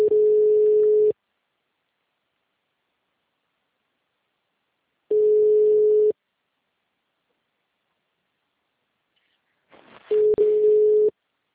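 Ringback tone from a telephone call being placed: three steady, mid-pitched one-second beeps spaced about five seconds apart, with silence between them and a brief noisy crackle just before the last beep.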